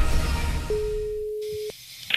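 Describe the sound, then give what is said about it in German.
A telephone signal: a single steady, mid-pitched electronic tone lasting about a second, heard alone after a brief burst of other sound. “Und ich glaube, ja, doch, da klingelt ein Telefon.”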